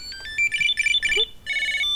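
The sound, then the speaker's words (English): A Bluetooth Tile tracker tag rings with a bright, high-pitched electronic melody of rapid chirping notes. A short pause breaks the tune before it repeats. The ringing is loud and plays alone without talk. “Now these are the different tones you can change, and I think the app's going to tell us about that. I just press the button on your Tile and it should stop it.”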